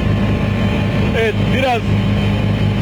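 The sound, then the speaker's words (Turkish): Istanbul street traffic makes a steady, loud, low engine rumble that continues under a person talking. “biraz kamera arkadaşım sizlere İstanbul'daki trafiği de gösteriyor. Şu anda dünkü kadar bir yoğunluğun olmadığını görüyoruz”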